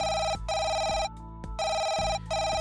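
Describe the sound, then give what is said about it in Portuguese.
A telephone rings with an incoming call, a loud, steady electronic ringing tone repeated in bursts separated by short gaps, heard alone without talk. “Vamos lá atender nova chamada.”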